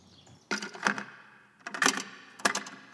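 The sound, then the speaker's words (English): Cassette tape being put into a recorder: a few hard plastic clacks and clicks in separate bursts, with brief quiet gaps between them and no talk. “I'm going to put this tape in.”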